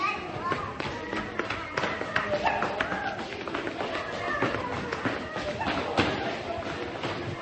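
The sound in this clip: A child's running footsteps in a hospital patter as many quick, light thumps and taps, uneven in rhythm and moderately faint, with people talking over them.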